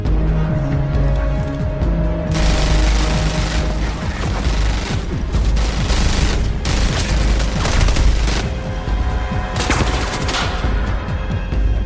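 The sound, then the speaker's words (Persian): Heavy gunfire from an exchange of fire, loud rapid bursts and volleys that run almost without a break through the whole stretch, with several sharper, louder blasts among them. “برو، بریم بهش شلیک کنین.”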